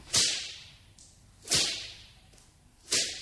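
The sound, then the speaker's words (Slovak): A whip whistles through the air and cracks three times at even intervals, each sharp snap loud and bright against a quiet background. “A vzduchom často bič zasviští.”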